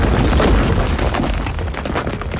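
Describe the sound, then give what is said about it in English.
Stone pyramid attack in a turn-based video game battle, a loud, heavy rumbling boom that sustains with crackling, gritty texture for about two seconds, fading slightly toward the end. “Select an action for a war attack. In the status items, earth net. Faux character used stone pyramid.”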